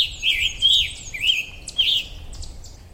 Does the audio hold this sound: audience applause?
no